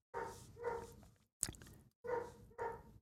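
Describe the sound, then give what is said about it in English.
A dog barks in the background in a faint, short run of several separate barks, each a brief rough burst with short gaps between them. “sorry for the dog barking in the background again.”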